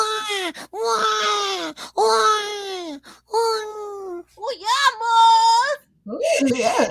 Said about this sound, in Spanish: No llores, no llores